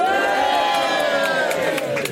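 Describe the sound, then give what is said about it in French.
Busy crowd at the RTS building open day, a dense, continuous mass of overlapping voices and calls that stays loud throughout. “je ne suis pas seul, je suis entouré par une multitude de foule.”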